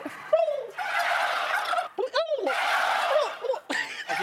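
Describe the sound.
A person imitates a turkey gobble, producing loud, warbling, bubbling vocal bursts separated by brief pauses, each burst rattling rapidly up and down, heard alone.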